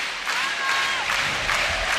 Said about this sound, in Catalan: S'anima el públic.